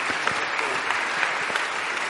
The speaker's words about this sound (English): Round of applause for Millie.